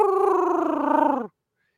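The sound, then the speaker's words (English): A person imitates the call of a fat, lazy pet cat that sounds like a turkey. It is one drawn-out, wavering, throaty voiced call lasting just over a second, dipping in pitch at the end before silence. “he doesn't even meow like a normal cat. He just does like a turkey call, and it's like,”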